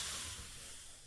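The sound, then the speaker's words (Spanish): A short, quiet, steady breathy hiss, a voice imitating an air pump inflating a tyre, heard alone and tapering slightly toward the end. “No, ese era el ruido de que te estaba inflando la goma.”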